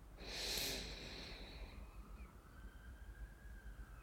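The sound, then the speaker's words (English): A single deep inhale through the nose during a guided breathing exercise: a soft, airy whoosh that swells in the first second and then trails into a faint, steady background hum, with no talk. “Let's take a deep breath in through the nose, filling the lungs completely.”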